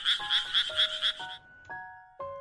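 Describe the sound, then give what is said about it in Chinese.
A frog croaks in a quick run of five raspy pulses, followed by a few longer, smoother tonal calls separated by brief silences. “那个是青蛙的叫声啊，你听过没啊？”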